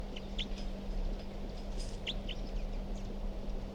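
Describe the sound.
Short, high bird chirps at dawn. A few brief calls are scattered over steady background noise and a low hum, with no talking.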